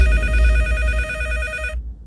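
A telephone rings with a bright, rapidly trilling electronic tone over a low rumble, then stops abruptly shortly before the end.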